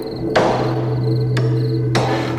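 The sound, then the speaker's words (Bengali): Heavy hammer blows ring out in a vault: three loud, sharp strikes at uneven spacing, each trailing a long, bright ringing decay over a steady low hum. “গোটা vault জুড়ে হাতুড়ির শব্দ প্রতিধ্বনিত হতে লাগলো বারবার।”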